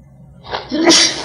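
A single loud sneeze: a brief breathy build-up that bursts into a sharp, hissing explosive release.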